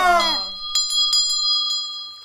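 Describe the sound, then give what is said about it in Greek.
A school headmaster rings a hand bell, producing several bright, ringing strokes that follow a brief voice at the start. “ο κύριος Μυρμήγκης, ο διευθυντής του σχολείου με την κουδούνα του”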